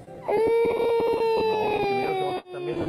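A baby cries in one long, sustained wail with a slight downward drift in pitch, then breaks off briefly before a second cry begins.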